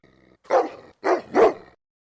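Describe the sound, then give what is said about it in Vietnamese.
A dog barks three times while standing before a bush as if facing an enemy: one loud bark, a short pause, then two more in close succession, with no other sound around them. “Con chó vẫn đứng đối diện bụi rậm, sủa như gặp phải kẻ địch.”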